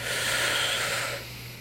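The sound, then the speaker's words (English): A long, deep inhalation taken during a guided breathing exercise. A steady, airy rush holds strongly for about a second, then eases off. “let's do a huge deep breath in. Three, two, one, let's go.”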